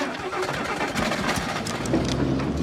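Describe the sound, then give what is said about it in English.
A truck engine revs while the vehicle is stuck against a bank with its rear wheel spinning in dust, a steady gritty mid-low rumble with rough grinding texture throughout. “the rear wheel spinning in the dust. He changes gear and the truck pulls free.”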